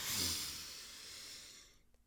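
A person takes one long, deep breath in during a guided relaxation exercise. It is a soft, airy rush that starts fuller and slowly thins out before fading to near silence, with no talking.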